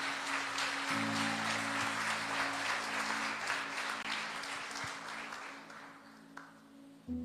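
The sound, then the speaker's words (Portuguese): Church audience applauding during a sermon, sustained clapping that holds steady for several seconds and then thins out toward the end, with low held tones sounding underneath. “Se você crê nisso, aplauda Ele aí, em nome de Jesus.”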